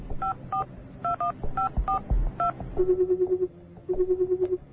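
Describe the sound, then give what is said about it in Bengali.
A telephone number is dialed at a phone shop in a market: a quick series of touch-tone beeps in varied pitches, followed by two buzzing ring tones on the line. “পরের দিন সকালে বাজারের একটা ফোনের দোকান থেকে phone করল সে হাসমতকে।”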